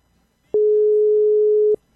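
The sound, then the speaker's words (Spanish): A telephone line tone from a failed phone call: one steady, mid-low electronic beep lasting just over a second, sounding alone against near silence. “parece que ahí teníamos problemas con esa llamada telefónica”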